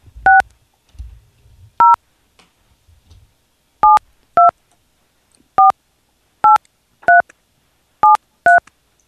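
A telephone keypad sends nine short, clean DTMF dialing tones into an automated voicemail system. They are loud, steady and evenly pitched, with irregular gaps: some come in quick pairs, others are spaced apart. No voices are heard.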